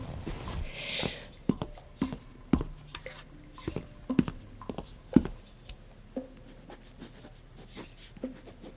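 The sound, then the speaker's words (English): A pen writing a phone number on paper: a run of light, irregular scratches and small taps, many short strokes at a quiet level, with no talk. “Do you have something to write a number down with? Yes. Let me get a pen.”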